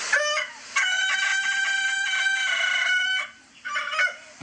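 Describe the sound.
A rooster crows in a recording played as the reference call for judging birds' crowing: a loud, high, harmonic crow held for a few seconds, followed after a brief gap by a shorter call.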